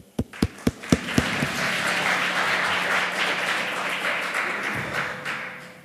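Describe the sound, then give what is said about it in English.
Audience applause welcomes a speaker before a talk on Microsoft's attempt to standardize its doc files. Five separate sharp claps lead into sustained, even clapping from many hands, which thins out toward the end. “Give him a warm welcome.”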